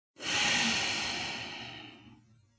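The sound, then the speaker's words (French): A single long exhale through the nose after a brief held breath, part of an energizing breathing exercise; a soft, breathy hiss that swells quickly and then slowly fades over about two seconds. “Retenez votre souffle. Puis soufflez par le nez.”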